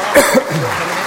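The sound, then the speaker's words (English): Audience applause breaks out to welcome a speaker at a school event honoring a biotechnology teacher. It is a brief, loud burst of clapping with some voices mixed in near the start. “Please put your hands together and welcome Jack Paul.”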